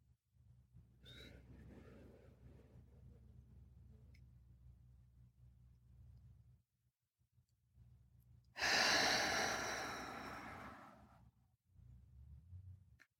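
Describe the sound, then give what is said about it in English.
A deep breath drawn and let out, with one long, loud, rushing exhale that fades slowly, set over a faint, steady low hum. “Deep breath.”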